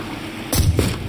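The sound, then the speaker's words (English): A single rifle gunshot fired into the front of a wooden boat on a sandy shore: one sudden, booming crack that rolls into a low, rumbling tail. “I put a single bullet into the front of the boat. The gunshot, like thunder, splintering the wood, sending pulped clouds of prow onto the sand.”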